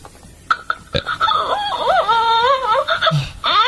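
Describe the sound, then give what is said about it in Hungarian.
An electronic crying baby doll toy gives a whiny, warbling cry with a wavering pitch. A few sharp clicks come before it, and the cry carries on almost without a break. “Tehát így sír a baba.”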